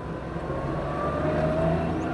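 A taxi cab's engine and road noise form a steady, even rumble with a faint whine above it. The level stays constant throughout.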